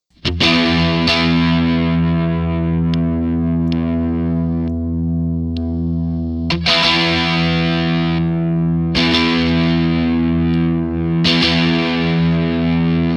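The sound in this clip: Electric guitar played through an overdrive pedal with the switch in its second position gives thick, distorted chords. A few strums ring out with long sustain, each swelling loudly before slowly settling.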